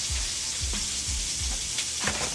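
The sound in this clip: Breakfast food sizzling in a frying pan, a continuous bright hiss with several soft low knocks scattered through it.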